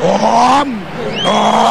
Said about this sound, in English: crank up that diesel.